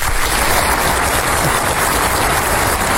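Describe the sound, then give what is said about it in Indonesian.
Dense, steady applause from the audience at a kindergarten farewell singing performance by children, a continuous even roar of clapping lasting throughout without pause. “Tepuk tangan dulu semua.”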